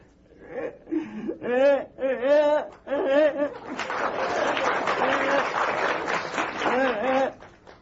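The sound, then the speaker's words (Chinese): A voice imitates a child crying, with wavering, sobbing wails in short bursts, then a noisier stretch broken by further sobs toward the end. “正吃着半截饭，孩子从外头哭着进来了。”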